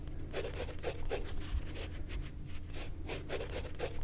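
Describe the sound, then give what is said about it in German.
Pencil scratches on paper while a plant is sketched: many quick, soft strokes in an uneven rhythm, faint and continuous, with no voices. “Da werde ich jetzt erstmal eine Weile zeichnen, bis ich die verstanden habe.”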